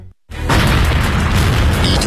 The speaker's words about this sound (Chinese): 1949年11月，沈阳迎来解放，但进城的第一夜就发生了爆炸。